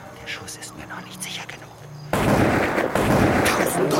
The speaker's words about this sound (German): Er hatte so schnell, dass ich es nicht hindern konnte, angelegt und den Schuss abgegeben. Den zweiten schickte er sofort nach